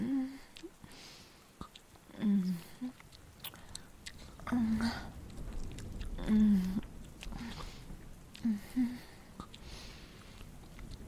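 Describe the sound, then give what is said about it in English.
Wet sipping and gulping mouth sounds of someone drinking werewolf blood, quiet close bursts recurring a few times, interspersed with soft low hums or moans. “Oh, wow, this is so good. I had no idea werewolf blood was so fucking delicious.”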